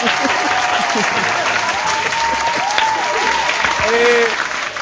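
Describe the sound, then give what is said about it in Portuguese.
An applause sound effect: a dense, loud, steady wash of clapping from a crowd that swells slightly near the end, with voices calling out over it. “Eu acho que ele merece uma salva de palmas. Por favor.”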